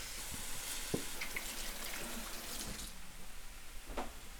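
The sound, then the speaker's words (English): Onions fry in a pan, cooking until translucent and mushy but not yet caramelized, giving a faint, steady sizzle with a few soft clicks scattered through it. “quite a bit until the onions have turned translucent and mushy, and not until like they're caramelized, but quite a bit on the way there.”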